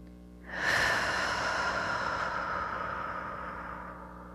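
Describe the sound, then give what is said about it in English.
A single deep breath taken during a guided moment of calm: a long, breathy rush of air starts about half a second in and slowly fades, over a faint, steady background hum. “go and just take one deep breath.”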